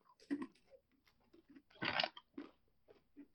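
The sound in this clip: Chewing a nutmeg-scented, pumpkin-pie-flavored treat: several faint, crisp crunches and bites arrive irregularly, one louder crunch standing out midway, with soft mouth sounds between.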